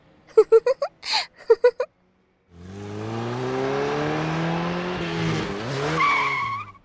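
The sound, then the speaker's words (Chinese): A high-end sports car's engine revs hard and loud for about four seconds with a sustained, roaring, harmonic drone and a squealing edge. It follows a brief burst of voice. “这个时代还有这种鬼火少年啊！油门踩得要炸天，不知道差点把我耳朵震聋了呀！讨厌死了。不要以为开了一辆高级跑车就出来嘚瑟”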